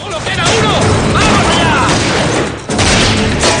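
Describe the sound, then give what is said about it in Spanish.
Machine gun fire in a 2007 western film shootout: loud, dense bursts of rapid gunfire and booming shots run almost continuously, with a brief dip before the firing resumes. “Los agentes disparan con la ametralladora. En la roca, el hombre de pelo largo dispara.”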